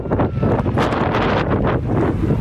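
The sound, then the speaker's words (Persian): Strong, cold autumn storm wind blows over the tents of deadly earthquake victims in Zindajan, Herat. It roars and buffets loudly and continuously, with repeated gusts. “خیمه های آسیب دیدگان زلزله مرگبار زندجان در دست تنباد های پاییزی و سرد. تقریبا هر شب و روز همین تنباد است و طوفان و سرما.”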